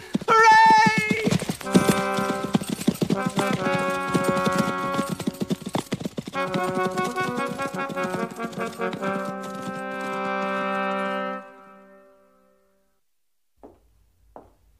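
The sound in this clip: A horse galloping: many rapid hoofbeats over loud sustained tones. The sound fades out near twelve seconds, leaving silence and a few faint knocks.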